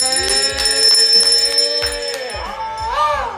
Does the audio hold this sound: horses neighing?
no

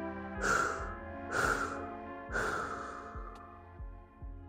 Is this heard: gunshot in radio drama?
no

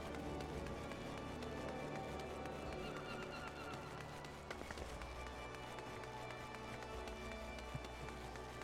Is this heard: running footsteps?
yes

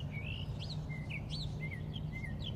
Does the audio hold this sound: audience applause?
no

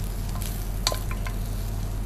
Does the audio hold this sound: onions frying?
yes

